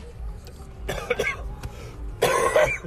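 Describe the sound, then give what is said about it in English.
Coughing from someone with honey roasted peanuts stuck in the throat. Two harsh bursts of rough, throaty coughs and throat clearing stand out over a low background. “I was eating some peanuts, and they got stuck in my throat.”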